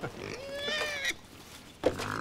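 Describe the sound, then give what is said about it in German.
Wild boars in an enclosure between the Baltic Sea and a forest give fairly quiet grunts and a couple of short, high, drawn-out squeals, one long call followed by a sharper one near the end. “Und mittendrin im Gehege lebt Familie Wildschwein.”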